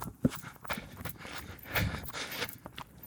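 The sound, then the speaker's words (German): Footsteps of a runner crossing a swamp: soft, irregular thuds and squelchy scuffs in an uneven rhythm, fairly faint throughout and without talking. “Ansonsten laufe ich einfach weiter. Oh, jetzt müssen wir aufpassen. Wir müssen hier irgendwie durch den Sumpf.”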